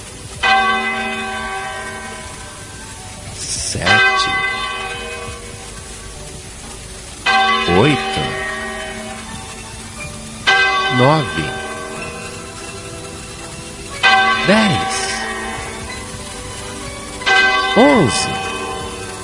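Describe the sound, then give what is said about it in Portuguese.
A church clock bell strikes the hour in five heavy, resonant tolls, spaced roughly three and a half seconds apart. Each toll rings out with a long, humming decay over a steady background hum. “a mente daqueles homens foi contando as badaladas. Deveria bater 12 vezes.”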